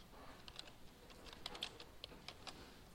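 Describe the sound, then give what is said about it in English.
Typing a short search phrase on a computer keyboard: faint, sparse key clicks at irregular intervals over a low background hiss. “Let me see if I can do something here. I'm going to type in short interest.”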